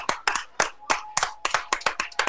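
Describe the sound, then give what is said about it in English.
Football fans clapping for the Mountain Home senior offensive linemen as they leave the field, sharp, distinct individual claps in an uneven rhythm that carry on throughout. “Hopefully, Mountain Home fans give them a clapping standing ovation,”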